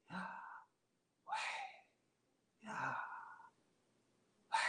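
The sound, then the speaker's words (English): A person breathes the name Yahweh, voicing the syllables on the inhale and the exhale with an open mouth and no tongue. The result is four breathy, sighing gasps separated by short pauses, the last one cut short. “You're actually supposed to say Yahweh with the first syllable on the inhale and the second syllable on the exhale without closing your mouth and without utilizing your tongue.”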